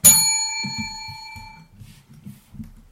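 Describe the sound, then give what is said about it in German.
A notification chime announcing a message reply: one bright, bell-like ring that strikes sharply and then fades slowly with a clear metallic tone. “Bing. Hat geklingelt, deine Antwort.”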